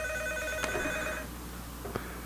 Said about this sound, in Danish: Så skal vi have et 90'er telefon interlude.